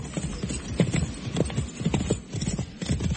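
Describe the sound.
Horses' hooves clip-clop as riders travel across a wide open plain. The clops are many, steady and rhythmic, and fairly loud throughout, with no talk.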